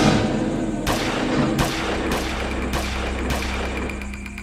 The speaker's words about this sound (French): Vers 1h du matin, 5 à 6 coups de feu claquent dans la nuit.